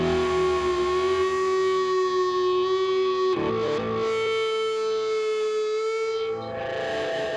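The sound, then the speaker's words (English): Guitar amplifier feedback rings out as loud, sustained, distorted howling tones at a steady pitch for several seconds, with a brief break midway and a dip near the end, no voices. “We like to use feedback because it's so chaotic and unpredictable, and it's ballsy, it's angry.”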